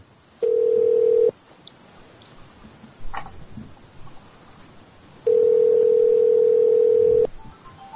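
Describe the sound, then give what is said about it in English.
Phone ringing: two loud, steady mid-pitched ring tones, the first about a second long and the second about two seconds, separated by a quiet gap with a few faint ticks. “your phone's ringing.”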